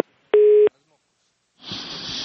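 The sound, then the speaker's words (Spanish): A telephone tone sounds after a call drops during a live interview. A single short, steady beep is followed by silence and then a low hiss. “Tenemos dificultades en la comunicación con Bruce McMaster, presidente de la ANDI. Hemos perdido la llamada, pero vamos a tratar de recuperarla”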